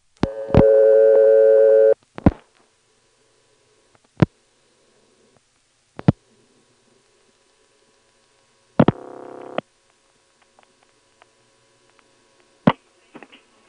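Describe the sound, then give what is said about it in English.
Telephone power ring tone on a phone company line: a buzzy, harmonic-rich tone lasting over a second, followed by sharp clicks spaced across the line and a second, shorter buzzy burst. “And there Centel goes again using the power ring, which really was never intended to be heard by the customer, for the sole purpose of being heard by the customer.”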